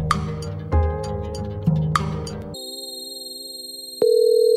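Telephone call tones as a guest is dialed up: after a brief burst of mixed sound, a steady electronic line tone hums, then a louder ringing tone starts abruptly and holds.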